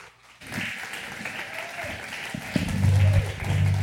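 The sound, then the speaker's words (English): Applause from a church audience welcoming a pastor onto the stage at a morning service: dense, sustained clapping that starts abruptly and swells louder toward the end. “Would you stand to your feet, put your hands together, and welcome Pastor Jessica to the stage this morning.”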